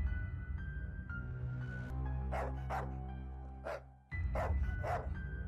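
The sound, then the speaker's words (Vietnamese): A black dog barks in a handful of sharp, unevenly spaced bursts that stand out loudly above a low, sustained musical drone. “Tiếng chó bất ngờ sủa vang lên, bà tự hỏi. Nghe như là tiếng con mực nhà mình.”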